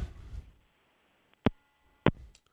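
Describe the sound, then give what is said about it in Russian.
Telephone busy tone after a dropped call: two short, clean beeps spaced about half a second apart, faint and alone after a brief low rumble at the start. “Так, сошел звонок.”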